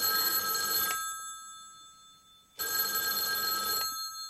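A telephone bell rings in two long bursts, each about a second, with a quiet pause of roughly a second and a half between them. The bright, loud ringing stands alone with no voices.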